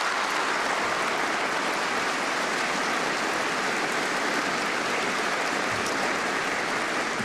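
Audience applause in a hall welcoming a guest at a formal ceremony: steady, soft, even clapping with a rain-like patter that holds unchanged for the whole stretch, with no voices.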